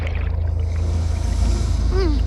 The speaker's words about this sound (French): C'est encore un de ces bateaux de pêche de malheur!